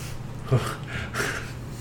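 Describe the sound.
A man makes a hissing, sputtering mouth noise imitating a tire losing air during a zombie tabletop game. It is one short, breathy burst with a low buzz, fairly faint and under two seconds.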